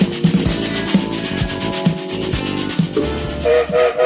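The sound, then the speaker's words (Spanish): Train sound effect, with a loud, steady mechanical rumble broken by rhythmic chuffing pulses that repeat throughout, alone without voices. “¿Y se suben al tren? Dale, ahora está parado, mientras vos te subís ya nos vamos a poner en movimiento.”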